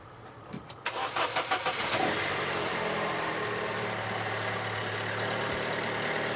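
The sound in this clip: A car's starter solenoid clacks when the key is turned, with the battery too weak to start the engine: a rapid series of clacking pulses, then a steady, continuous engine-like drone.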